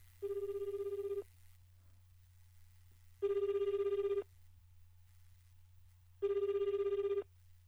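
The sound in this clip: A telephone rings on the line while a call is being placed. Three steady ring bursts of about a second each repeat at even intervals over a constant low hum, with no talking.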